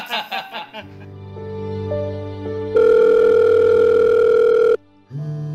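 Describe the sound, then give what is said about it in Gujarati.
A telephone tone on a call to a busy number: a loud, steady electronic tone that holds for about two seconds after lower sustained tones. A brief voice is heard at the start and near the end. “The number you have dialed is currently busy.”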